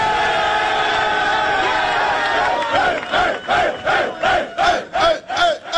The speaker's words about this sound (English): Does that sound like a locker room that doesn't love their head coach?